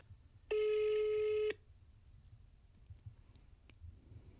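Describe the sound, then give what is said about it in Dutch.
A telephone ringback tone sounds while a call is being placed: a single steady, clear tone lasts about a second, then the line falls to faint hiss. “Dus ik denk dat het weer tijd is om te bellen.”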